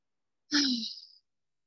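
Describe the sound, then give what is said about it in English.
A single deep breath drawn in by a speaker opening a talk at an eating disorder conference: a breathy, airy rush with a faint voiced edge, lasting under a second, heard alone without talk. “I'm going to take three deep breaths in. Feel free to join me.”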